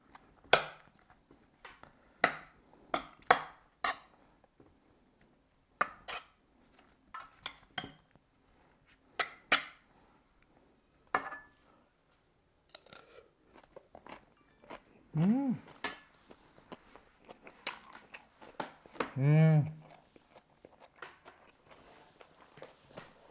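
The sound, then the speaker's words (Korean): Metal clinks of a spoon scraping and striking a metal bowl as hot rice with sesame oil and spring-cabbage kimchi is mixed: many irregular, sharp, fairly faint taps and clatters with short pauses between them. “일단 마구마구 비벼줍니다. 양푼 소리가 좀 날 수도 있어요.”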